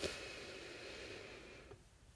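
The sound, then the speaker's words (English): One long, deep inhale during a breathing exercise, a faint, steady breathy hiss lasting under two seconds before it fades off, with no voices. “let's go ahead and do some breathing. I need it for sure, so I'm sure you do too. So let's go ahead and do that. Deep in”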